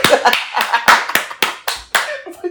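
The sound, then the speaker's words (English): Loud hand clapping, a quick, steady run of sharp, bright claps at about four per second with no talking. “you like stopping me from clapping? It was too loud.”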